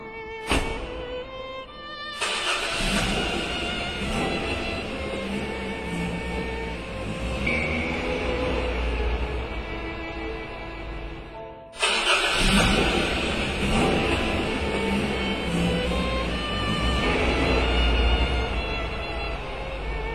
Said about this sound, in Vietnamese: Hai chiếc xe hơi rút chạy, chở cô Cúc